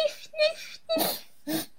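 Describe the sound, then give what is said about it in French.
A voice imitates sniffing as if about to cry, in four short bursts: whimpery, voiced sniffs that grow breathier and noisier toward the end, moderately loud and alone. “Et quand on renifle, parce qu'on a envie de pleurer, une petite larme arrive, qu'est-ce qu'on fait?”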